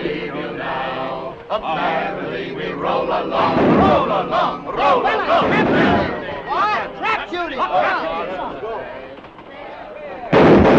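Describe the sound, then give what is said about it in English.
Gunfire as several people with guns join in target practice: sharp shots and bangs mixed with loud shouting and excited crowd voices throughout. “Now others collect their guns and join in the target practice.”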